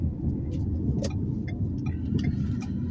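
Car being driven on the road on the way to work, a constant low rumble of engine and road noise with faint ticks above it, steady throughout and without talk.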